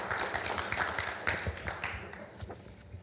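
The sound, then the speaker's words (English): An audience applauds to welcome a speaker, a dense, steady patter of many hands clapping at even loudness for the whole few seconds, with no voices standing out. “put your hands together and welcome Dr. Sam Brinkmann”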